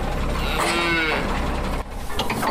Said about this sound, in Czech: K bývalé střelnici se teď blíží nákladní vůz naložený skotským skotem.